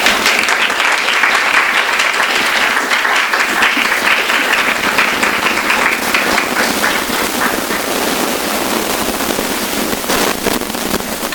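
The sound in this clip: Audience applause welcoming a speaker to the stage at an evening talk, a loud, dense and steady wash of clapping that holds for the whole stretch.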